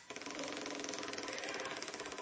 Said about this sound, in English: And he has an opportunity now to spin the wheel for some wonderful cash prizes.